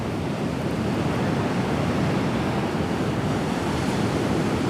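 Steady roar of sea waves washing onto a deserted beach lined with sand dunes, a continuous broad hiss of surf mixed with wind and no voices.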